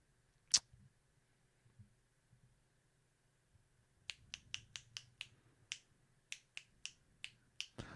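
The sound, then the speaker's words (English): Dramatic finger snaps, quiet and crisp: one sharp snap with a couple of faint ones after it, a pause, then a rapid run of many snaps in an uneven rhythm. “dramatic finger snaps.”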